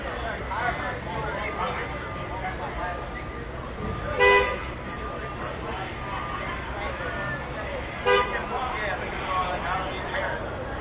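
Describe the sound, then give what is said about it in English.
Car horns beep at a car stopped in the middle of a street, holding up traffic; two short, bright toots stand out separately against a steady wash of road noise. “Some guy just has his car in the middle of the street. People are beeping at him.”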